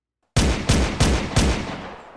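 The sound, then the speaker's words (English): Four gunshots from a handgun ring out as loud, sharp cracks in quick, evenly spaced succession. Each shot leaves a ringing tail, and the last one fades out slowly. “He was in the corner, still cradling his bloody gun hand, and firing with the other hand.”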